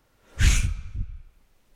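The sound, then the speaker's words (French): A single loud, forceful breathy exhale is blown out noisily as clenched fists are lowered and the legs bend sharply during a biodynamic breathing exercise. The breath lasts about a second, rising quickly and then tapering off. “Les poings seront serrés, vous serrez très fort les poings poumons plein, puis vous soufflez bruyamment en baissant les point, et en fléchissant les jambes brusquement.”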